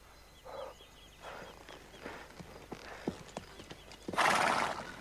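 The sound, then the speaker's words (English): A mare is ridden and slowed, her hooves clip-clopping in a loose, uneven series of sharp knocks, with a few soft snorting bursts, before a loud neigh rings out near the end. “Jim steadies the mare as he slows and rides alongside.”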